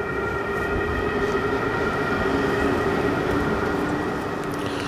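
A train and a siren heard together at night: a steady, loud rumble of rolling stock runs throughout, with sustained high tones held over it.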